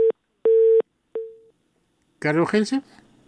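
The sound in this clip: A busy tone sounds after a phone call is cut off: three steady, mid-pitched beeps separated by gaps, the last one trailing away, followed by a brief burst of a voice speaking.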